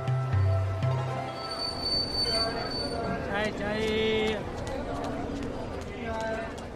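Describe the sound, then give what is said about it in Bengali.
Train sounds at Howrah station as a train departs, with squealing metal wheels and sustained high-pitched tones over a steady rolling din, and a murmur of voices throughout. “পরের দিন আমি আর Byomkesh Howrah station থেকে পশ্চিমের দিকে রওনা দিলাম।”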